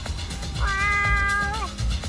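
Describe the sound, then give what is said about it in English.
A cat gives a single clear meow of about one second, holding a steady pitch and dropping at the end, over low background noise. “So would we say that was the cat's meow?”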